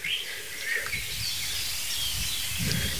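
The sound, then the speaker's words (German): Birds sing in a forest, with faint scattered chirps and short calls over a soft rustle and a low rumble. “So langsam beruhigt dich die Lage im Wald wieder, aber nicht so wirklich. Also ruhig ist was anderes. Ruhig ist nämlich laut. Weil Vögel singen einfach gerne.”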